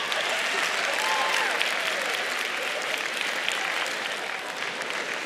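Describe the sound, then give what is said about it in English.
Group applause at a church Bible-study gathering, given for a group of girls. The clapping is dense, steady and loud for over five seconds, with faint voices mixed into it. “It feels good to be cheered for, doesn't it, girls?”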